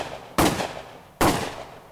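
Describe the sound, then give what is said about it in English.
Gunshots: two sharp, loud bangs about a second apart. Each hits suddenly and then trails off in a rough, noisy decay, with no voices. “the sound of 3 gunshots, and the world went dark.”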